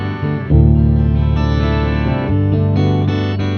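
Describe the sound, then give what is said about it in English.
An electric guitar through a harmonizer effect gives a bright, very digital tone, with stacked, distorted harmony notes sustaining as chords that shift a few times, loud and with no talk. “Then I also have on the other side of the whammy this harmonizer.”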